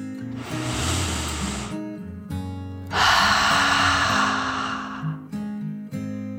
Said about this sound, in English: Taking a deep dragon breath in and out.